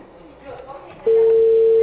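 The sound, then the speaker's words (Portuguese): A telephone ringing tone sounds while a call is placed: a steady single-pitch tone starts suddenly after brief talk and holds loud and unbroken to the end. “Tô ligando aqui pra ele. É, eu tô ligando.”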